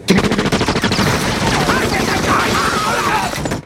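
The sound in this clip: Gunfire from a film rattles in a dense, continuous barrage of many rapid shots and cracks, loud throughout with no break.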